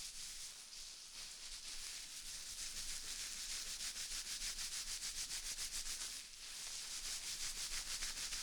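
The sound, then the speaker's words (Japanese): Hair being shampooed as a courtesy service at a Japanese inn gives a faint, steady rubbing and scrubbing. Rapid, even strokes keep going with a brief pause partway through, and no voices are heard. “もうお分かりでございますね。ことのついでのシャンプーサービスでございます。”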